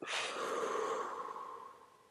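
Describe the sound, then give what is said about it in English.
A long, steady breath blown out through the mouth during a belly-breathing exercise: a single airy rush that starts strong and slowly fades, with no talking. “And then you can breathe in a little bit through your mouth, and then you're going to blow out.”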